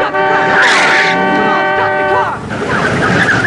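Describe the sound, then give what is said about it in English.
A car accelerates down into a car park and brakes hard, giving a loud, sustained tonal squeal over a dense roar of engine noise. “The woman accelerates down into the car park, braking hard and sending the punk flying onto the ground.”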